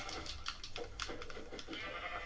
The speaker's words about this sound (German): Ein Schaf.